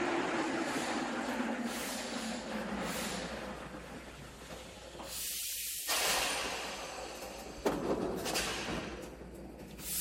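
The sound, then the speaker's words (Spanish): A subway train arrives at a station with a broad, continuous hissing rush over a low rumble. The sound swells and dips in intensity, with no voices. “Ahí se oye cómo llega el metro.”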